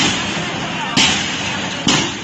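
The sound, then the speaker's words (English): Flash grenades exploding as police clear streets outside a hospital in Yangon: two sharp, loud bangs about a second apart over a dense, continuous roar of crowd and street noise. “Here are police outside one hospital in Yangon, clearing the streets with flash grenades.”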